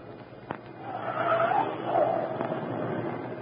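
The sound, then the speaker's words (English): A car in a radio drama turns into a driveway and stops, its tires giving two swelling squeals over a low engine rumble, with a couple of sharp clicks before and after. “Oh, Cato, turn to the next drive to the right.”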